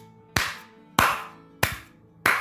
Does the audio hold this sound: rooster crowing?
no

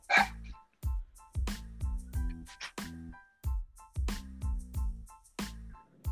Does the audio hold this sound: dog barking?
yes

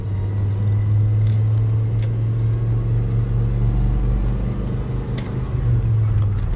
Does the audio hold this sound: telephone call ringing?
no

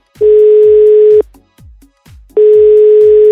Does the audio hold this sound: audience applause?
no

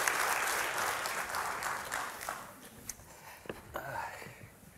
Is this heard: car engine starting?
no

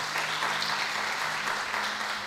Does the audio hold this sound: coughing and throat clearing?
no

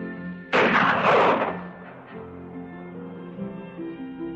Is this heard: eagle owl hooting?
no

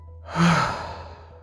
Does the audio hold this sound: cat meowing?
no

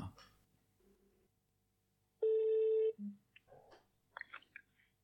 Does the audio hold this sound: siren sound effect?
no

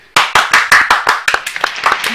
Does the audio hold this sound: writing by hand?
no

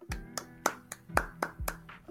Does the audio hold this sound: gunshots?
no

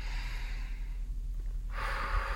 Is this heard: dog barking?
no

